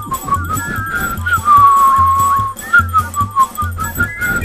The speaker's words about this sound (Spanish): El coro estable de angelitos silbadores.